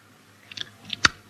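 Someone chews with mouth noises: a few soft, moist clicks and then one sharper crunch near the end, brief and quiet with no talk.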